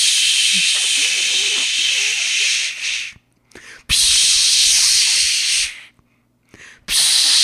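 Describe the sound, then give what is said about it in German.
A voice imitates a long-nozzle spray can hissing into a bees' nest: loud, sustained breathy hisses, two long ones and a shorter burst at the end, with brief faint hisses in the gap between them. “Und zwar eine Spraydose mit so einem langen Rüssel. Und dann ist er hingegangen, hat diesen Rüssel ins Nest gemacht und wirklich so,”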